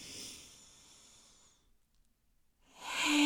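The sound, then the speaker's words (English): Breathing in through the nose during a guided breathing exercise: a breathy, hissing breath that fades into a near-silent pause, followed by a louder, rushing second breath. No talking. “Okay, so we're going to go in through the nose with a breath.”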